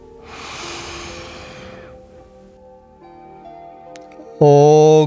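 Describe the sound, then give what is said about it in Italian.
A deep inhalation before a mantra repetition in chakra meditation, a long airy breath drawn in for about two seconds over sustained meditation tones. A loud, steady harmonic tone then begins abruptly near the end. “Inspira profondamente prima di ogni ripetizione.”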